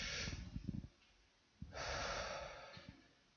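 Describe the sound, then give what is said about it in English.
A group of people breathe deeply together during a guided breathing exercise: a short, snorting rush of inhaled air, a pause, then a longer, broad whooshing exhale that slowly fades. Both are faint, with no talk. “God made that breath. Let's try it again. That was a practice run.”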